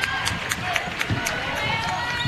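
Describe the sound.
A basketball bounces on the court during a game, with quick, regular thumps repeating steadily over a dense, constant crowd roar.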